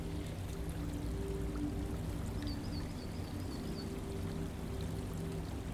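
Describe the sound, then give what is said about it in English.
Faint trickle of a stream feeding a pond beneath a cherry blossom tree in bloom, a soft, even watery hiss running unbroken over a low steady hum. “A faint trickle of a stream feeds the pond on one side”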